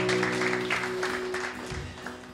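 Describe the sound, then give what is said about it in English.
Church audience clapping as an offering during worship, several broad bursts of hand claps over a sustained keyboard chord, gradually fading toward the end. “Come on, last clap offering to the Lord.”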